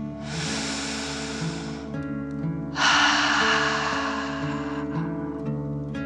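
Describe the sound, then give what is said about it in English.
Slow deep breathing in and out during a guided belly-breathing exercise, in through the nose and out through the mouth like breathing fire: two long, airy rushes of breath over a soft, sustained musical bed. “Let's take another 3 deep dragon breaths. Deep breath, filling up your belly, in and out.”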